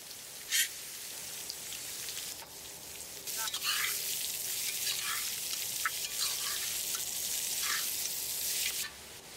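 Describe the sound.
Green chillies and onions sizzle in a pan with curry leaves, a steady crackling hiss broken by a few sharper pops and spits, with no talk over it.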